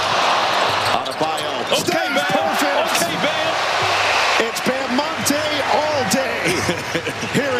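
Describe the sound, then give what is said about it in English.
Basketball game action around a Bam Adebayo dunk: repeated ball bounces and squeaking sneakers over a steady, loud crowd roar, with voices mixed into the noise. “Here's Bam Adebayo dunking. Oh, hurry. Oh, he's dancing.”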